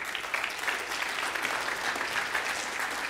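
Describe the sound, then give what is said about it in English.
A church audience applauds its absent interns with continuous, even clapping, a full and steady roar that neither builds nor fades. “Too bad they're not here to hear the applause, but we'll tell them about it.”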